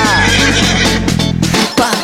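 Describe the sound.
A horse neighs, a wavering, high whinny set against loud, steady dance music with a strong, sustained instrumental backing throughout.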